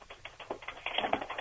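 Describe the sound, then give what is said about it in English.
Someone types on a keyboard: a quick, irregular run of light clicking keystrokes, fairly faint and with no voices. “Could you type a little louder, please? Is there any way you could type louder?”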